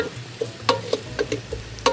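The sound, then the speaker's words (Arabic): Onions frying in a pan while being cooked soft: a steady sizzle broken by several sharp crackles and pops, with stirring noises and no talking. “هلا البصل اتدبل منيح”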